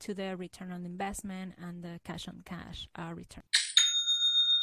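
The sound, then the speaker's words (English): A Shopify sale notification chime rings out after a stretch of speech: a sudden bright strike followed by a clear, high, sustained ringing tone that holds steady to the end. “You should know what that is. That's the best kind of notification. That's the sound of another sale on Shopify.”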